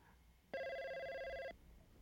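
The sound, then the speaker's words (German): A telephone rings once in the 1980s: a steady, buzzing electronic tone with stacked harmonics lasts about a second, starting and stopping abruptly over quiet background hiss. “Mit einem Strahlen beantwortet er den nächsten Anruf.”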